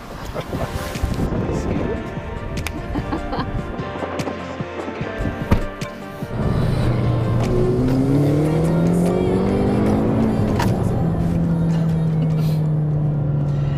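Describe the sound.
Car driving fast on a race track, with a loud rumble and wind rush, then the engine note climbing through gears before settling lower and droning steadily on.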